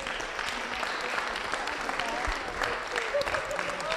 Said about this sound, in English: Well, we got some thank you, everyone. Let's just give them a hand.